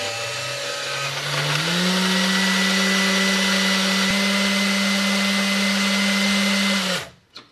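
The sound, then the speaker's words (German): A food processor purees basil leaves with sour cream, its motor whirring loudly and steadily. The pitch steps up shortly after the start, then holds even before the motor cuts off abruptly near the end. “Das Ganze wird in der Moulinette püriert. Okay, das machen wir jetzt.”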